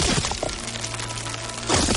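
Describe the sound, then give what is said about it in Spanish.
A wall breaks as a man smashes through it with his shoulder: rough, dense crumbling noise with sharper cracking bursts at the start and again at the end. “Golpea la pared con el hombro.”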